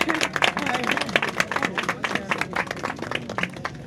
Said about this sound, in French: je pense qu'on peut l'applaudir